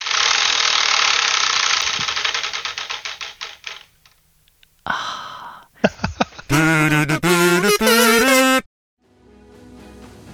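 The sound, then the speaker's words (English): A spinning prize wheel clicks: rapid, loud ticks gradually slow and die away. A few scattered knocks follow, then a bright musical flourish of sustained tones. “could you just sign off with one more spin of your own personal wheel, please?”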